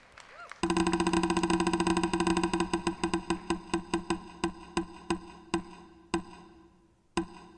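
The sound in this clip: A spinning wheel ticks rapidly at first, its clicks gradually slowing and spreading apart until a few widely spaced final ticks sound before it comes to rest.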